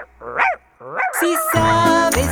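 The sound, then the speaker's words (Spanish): A large farm dog barks twice in a children's song about a farm, giving sharp, voiced yelps with a short pause between them before loud music comes in and carries on. “Tengo en mi granja un perro muy grande que hace”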